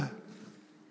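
A person imitates gasping for breath after resurfacing from a diving blackout, giving a single short, rough, breathy intake that is faint and fades quickly.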